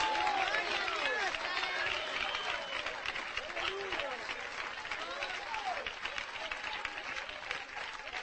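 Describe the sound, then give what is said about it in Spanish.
A church audience applauds during an evening service, steady dense clapping with voices cheering and calling out above it. “¿Cuántos le aplauden al Dios de gloria en esta noche? ¿Cuántos le aplauden al Dios de gloria en esta noche?”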